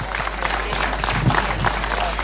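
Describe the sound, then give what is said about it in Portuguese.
Applause from an audience at a formal evening event honouring a town mayor, steady dense clapping that fills the whole clip at an even level with a faint crowd murmur beneath. “professor doutor Jorge Ferreira, Presidente da Câmara Municipal de Gouveia, para quem peço uma enorme salva de palmas”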